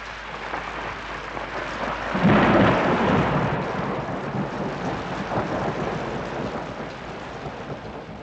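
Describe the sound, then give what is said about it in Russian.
Heavy rain intensifying outdoors beside a pond, a dense steady roar of falling water that swells louder a couple of seconds in and stays strong and even to the end. “Дождь усиливается.”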